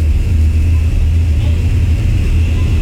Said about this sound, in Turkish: Tekerlek içeride. Flaplar, konum. İyi kalkıştı.